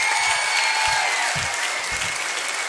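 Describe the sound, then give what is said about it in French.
An audience applauds at an association's 10th-anniversary concert in Roanne, a dense, steady roar of clapping that carries on evenly throughout. “Applaudissements pour Nazim, s'il vous plaît.”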